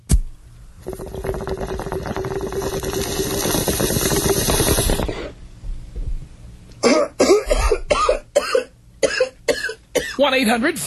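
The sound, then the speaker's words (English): A bong hit: a loud, bubbling, hissing inhale lasts several seconds, then stops abruptly. Coughing mixed with talking voices follows. “I'll take you out with a bong hit. Here you go.”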